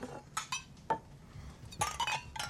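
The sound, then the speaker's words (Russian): Glasses and tableware clink as drinks are poured into glasses and a glass is raised. A few short, bright knocks and clatters are spaced unevenly, with no voices. “Кошелев разливает по стаканам. Федоров открывает пробитую банку. Кошелев поднимает стакан.”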